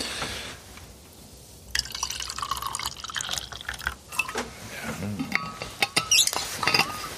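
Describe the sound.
Freshly brewed coffee is poured into a camping mug, heard as a faint liquid trickle and splash with a few light clinks toward the end, quiet and without talk.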